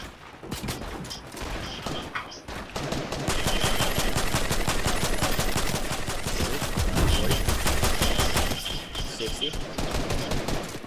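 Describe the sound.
Rapid automatic gunfire in a video game, loud and sustained, with bursts of tightly packed shots that thicken into near-continuous fire through the middle before easing slightly at the end.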